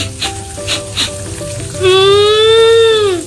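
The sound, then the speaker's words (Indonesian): Tofu and tempeh fry in hot oil, a steady crackling sizzle that grows louder and fuller partway through and holds to the end. “Sedapnya. Masak apa nih, Mah? Ada tahu, ada tempe, plus sayur bening, sama sambal terasi.”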